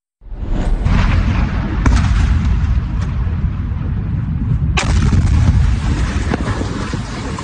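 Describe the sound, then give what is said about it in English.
Explosions from an Iranian missile strike in Jordan: a continuous heavy rumbling roar with wind-like noise, broken by a few sharp bangs, the strongest one coming late. “That is an Iranian missile strike you are watching that killed three Americans in Jordan back in July.”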